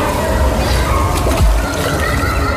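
A splash of a person diving into water, a first dive made without a belly landing: steady sloshing and churning water with a heavier surge of splash around the middle, then continued rolling water.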